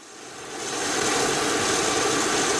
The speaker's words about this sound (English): It might be hard to tell, but that's the sound of a plane with lower carbon emissions. The aircraft is refueling on the tarmac at the Telluride Regional Airport